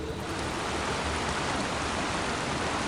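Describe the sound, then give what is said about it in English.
Waterfall, a faint, steady rushing hiss of falling water that stays even throughout without breaks or voices. “that's the waterfall.”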